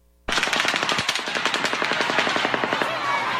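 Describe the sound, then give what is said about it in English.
Rifle rounds striking pavement, followed by distant rifle reports: a sudden loud onset, then a rapid, evenly spaced string of many sharp cracks that runs on to the end, like sustained automatic fire. “Did you hear the rifle rounds hitting the pavement followed by the rifle reports from a distant location?”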